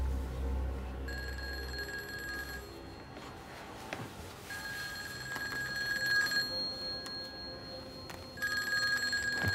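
A telephone rings in three separate bursts with pauses between them, the last cut off at the end. The ringing is fairly quiet, with a low background hum and no talk.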